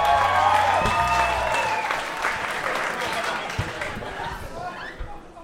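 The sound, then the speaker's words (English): A comedy show audience applauds and cheers, with loud clapping and whoops at first that gradually taper off into scattered claps. “Make some noise one more time for Kiko, everybody.”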